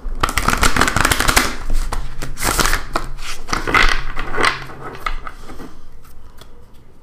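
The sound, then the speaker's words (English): Shuffling of a Thoth tarot card deck: dense bursts of papery riffling and rustling, brisk and fairly loud, that thin out and grow fainter toward the end, with no voices. “and get our Thoth deck. Give our first shuffle.”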